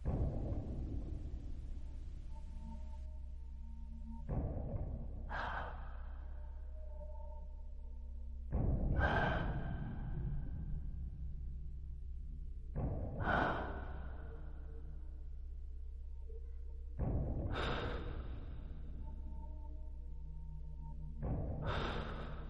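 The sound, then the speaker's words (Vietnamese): Heavy, wheezing breathing, slow and laboured, with rasping breaths that swell in at irregular intervals of a few seconds, quiet and alone. “Trong không gian chỉ còn lại tiếng thở khò khè và nặng nề.”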